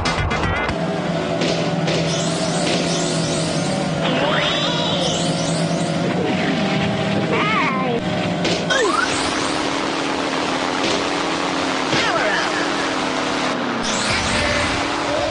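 Several vehicles drive at once in a four-player video game mode, with continuous loud engine whines and revving that glide up and down in pitch and overlap throughout.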